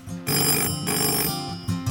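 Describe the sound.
A telephone bell ringing loudly: a long, bright metallic trill lasting about a second, a short pause, then a second ring beginning, with no talk.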